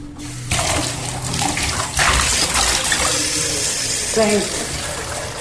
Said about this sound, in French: Donc 5 litres d'eau que je vais ajouter, vous allez voir.